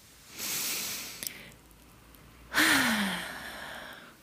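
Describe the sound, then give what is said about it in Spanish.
Deep breathing during a calm breathing exercise: a slow, airy inhale, a short pause, then a longer and louder exhale that fades out gradually. No speech. “vuelvo a respirar, que la respiración es para mí lo que más me conecta con el presente. Así que respiraré muchas veces.”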